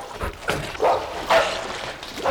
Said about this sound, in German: Dick dagegen folgte so schnell er konnte den Pfotenschritten und dem Hecheln und Bellen von Timmy